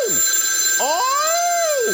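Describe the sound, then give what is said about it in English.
Telephone ringing as a warbling electronic tone that swoops down, then climbs and arches in pitch, with a thin steady high whine running underneath and no voices. “I don't like that damn phone.”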